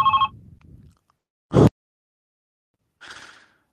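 A telephone rings on an outgoing call with one short, clear ring tone at the start. A sharp click and a softer, brief noise follow, with silence between them.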